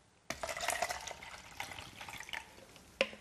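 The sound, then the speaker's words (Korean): Water is poured to soak a dried-out potted plant, a faint continuous splashing trickle with a small knock near the end. “담궜어요. 놔두고 물을 가득 따라줍니다.”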